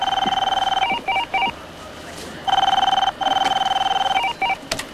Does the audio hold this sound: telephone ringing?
yes

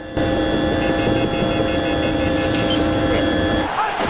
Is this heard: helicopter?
yes

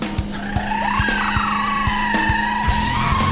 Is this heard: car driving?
yes

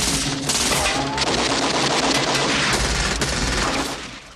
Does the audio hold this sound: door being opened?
no

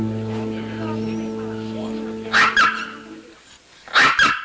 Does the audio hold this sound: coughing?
no

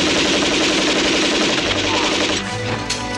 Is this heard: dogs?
no

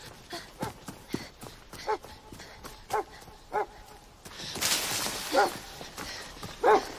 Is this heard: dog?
yes

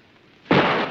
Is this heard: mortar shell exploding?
yes

